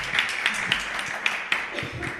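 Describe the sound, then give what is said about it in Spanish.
A small audience applauds at an education discussion event with faint, scattered claps and a few sharper individual hand claps standing out. “Muy bien, bueno, un aplauso para Antonio.”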